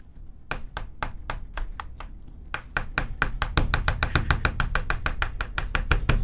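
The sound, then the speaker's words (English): A knife tip is stabbed rapidly onto a table between spread fingers in a studio, producing many sharp wooden clacks that grow faster and louder as the run goes on, with no talk. “I'm doing that game where you stab a knife between all your fingers and you go faster and faster. I'm doing it all here. You can't hear it usually because I got the mic up to me, but check it out.”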